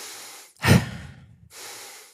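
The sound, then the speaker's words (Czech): Sharp breaths drawn in through the nose, airy sniffing rushes with one loud, forceful inhale in the middle that carries a low rumble, set between softer, hissier breaths. “V případě, že se nadechnu dvakrát takhle,”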